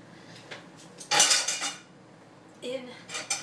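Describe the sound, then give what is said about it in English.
Metal cutlery clattering as a half-teaspoon measuring spoon is handled: two bursts of bright, jangling clinks separated by a quiet pause. “Okay, so I got out a half a teaspoon.”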